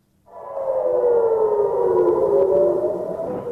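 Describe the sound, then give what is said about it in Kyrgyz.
An air raid siren sounds in northern Israel near the border with Lebanon: a loud, continuous wail that starts abruptly and holds steady, drifting slightly downward in pitch, with no voices. “Жекшембинин таңында Израилдин Ливан менен чектешкен түндүк аймактарында ушундай сиренанын жана аба соккуларынын добушу болуп турду.”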